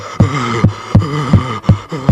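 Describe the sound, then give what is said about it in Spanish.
A pounding heartbeat of strong palpitations, heard as a fast, regular series of deep, loud thumps over a sustained tonal hum. “tiene fuertes palpitaciones”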